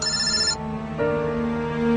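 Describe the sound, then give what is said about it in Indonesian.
A mobile phone rings with an incoming call. Its electronic ringtone plays a steady, continuous melody that shifts to new tones partway through. “sebuah panggilan masuk ke handphoneku.”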